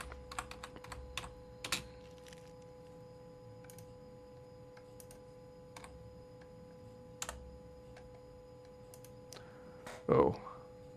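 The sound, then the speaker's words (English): Quiet typing on a computer keyboard: scattered soft key clicks in irregular bursts, with a few louder taps and a faint steady hum underneath. “Sorry, you gotta hear me typing.”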